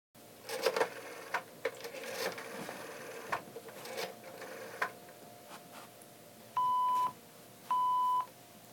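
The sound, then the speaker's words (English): Telephone dialing: a run of irregular clicks and ticks, then two short, steady, mid-pitched beeps, all fairly faint, on a call to an operator about a number that keeps giving a busy line. “Operator, I've been dialing Murray Hill, 40098, now for the last course of an hour, and the line is always busy,”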